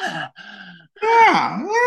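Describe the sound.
A human voice imitates a cow's breathy mew call: a few short, airy notes, then a longer crying call whose pitch wavers, dipping and rising again.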